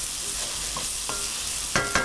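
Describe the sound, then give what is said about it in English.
Food frying in olive oil in a pan over medium-low heat is stirred, a steady sizzling hiss broken near the end by two brief scrapes of the utensil. “So I'm turning the heat down to medium low. And I'm stirring to get those ones that were on the bottom”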